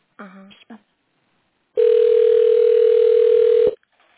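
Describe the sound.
A telephone tone sounds while a call is being transferred: after a brief snatch of voice, a single steady hum-like tone holds for about two seconds, then cuts off with a click.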